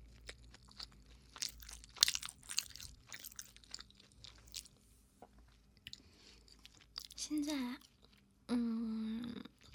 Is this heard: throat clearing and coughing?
no

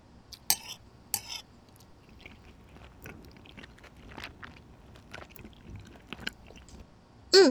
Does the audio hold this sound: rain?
no

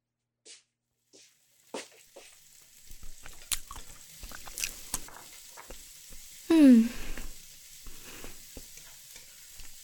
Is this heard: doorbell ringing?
no

